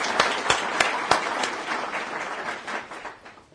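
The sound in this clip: Audience applause at a Brookings event welcoming General Allen as guest speaker. Dense clapping, with a few sharper claps standing out early, continues steadily and thins slightly over a few seconds.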